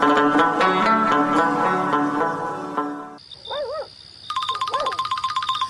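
An incoming call sets a phone ringing: a steady electronic tone and warbling chirps lead into a rapid, pulsing trill that repeats loudly to the end.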